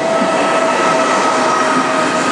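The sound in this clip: A train arriving at a station in Genoa gives off a loud, continuous rail rumble and wheel noise, with a faint steady tone running through it and no voices.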